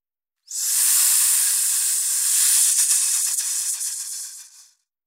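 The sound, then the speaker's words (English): A steady, bright hiss starts abruptly and holds for about four seconds, with slight crackly flutter midway, then tapers off to silence. “Hiss.”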